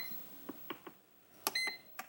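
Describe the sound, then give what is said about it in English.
Faint small clicks from a pressure cooker switching to its browning cycle, a few sharp ticks spaced apart, followed by a short electronic beep and one more click. “And that little click means that the browning cycle has turned on.”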